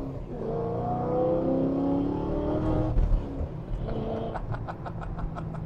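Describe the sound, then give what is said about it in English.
A stick-shift car's engine revs and hums through a tight U-turn on a test drive, its note shifting up and down, followed by a quick run of regular ticking. “Is the U-turn tougher at the with the stick shift?”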